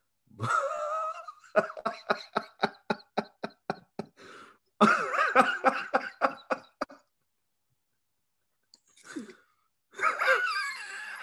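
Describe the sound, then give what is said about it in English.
Someone wheezing and coughing in a long fit: a rapid run of many short, rhythmic bursts, then rougher, drawn-out wheezy bursts separated by brief silences. “You all right? You wheezing over there?”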